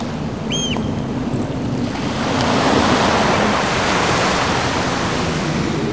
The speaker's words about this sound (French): La mer.